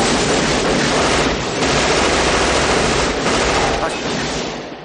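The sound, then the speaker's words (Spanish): Sustained gunfire as a van is riddled with bullets in a 1996 action thriller film, a loud, dense, unbroken roar of rapid shots that eases slightly near the end. “Al instante rodean la furgoneta y disparan contra ella la como un colador.”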